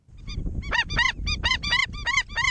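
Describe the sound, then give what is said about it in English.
Calls of the Indian skimmer, a black and white water bird: many harsh, nasal, honking yelps in quick bursts over a low rumbling background. “the sound of the Indian skimmer. We'll hear about a conservationist who's won an award for her efforts to protect the population of the black and white water birds.”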